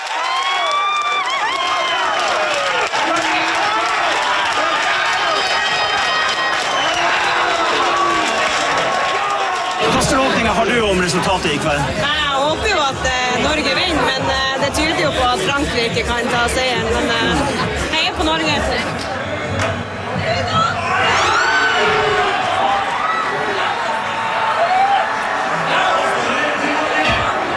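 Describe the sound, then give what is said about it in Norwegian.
Crowd noise from workers at a Hammerfest slaughterhouse gathered around a TV for Norway's match against France. Steady chatter swells into loud, sustained cheering and shouting as Norway scores, with many voices throughout. “Men vi skal ta turen innom slakteriet Hammerfest, hvor folk da hadde samlet seg rundt TV-skjermen for å følge med på denne kampen. Og det første vi hører når Norge endelig skårte et mål.”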